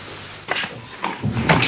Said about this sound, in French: Laissez-moi ouvrir la porte et quitter.